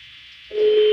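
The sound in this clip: A telephone ringback tone from a call that goes unanswered: a hissy line, then a single steady mid-pitched tone that begins halfway through and holds at a moderate level.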